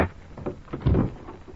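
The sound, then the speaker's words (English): A door opening as a radio drama sound effect, a brief rasping, creaking slide that swells briefly near its middle before fading. “Behind every unopened door, there is a mystery. And the opening of this door introduces us to another in the series, The Key.”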